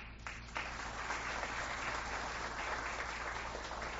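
Applause at a ceremony comes from a crowd clapping steadily and continuously at an even, fairly soft level, with no voices over it.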